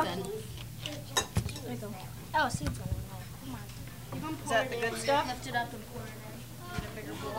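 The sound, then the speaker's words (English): Utensils scooping and scraping watermelon flesh as kids help: scattered clinks and scrapes against dishes and cutlery, mixed with children chatting throughout. “helping the kids scoop the watermelon. Fingers, and then scrape all of the meat out.”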